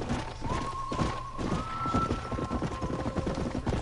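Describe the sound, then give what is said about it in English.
Horse hooves clip-clopping as a rider travels across a ranch in a video game, a quick, steady rhythm of soft thuds throughout, with a faint sustained tone running underneath. “More horse riding.”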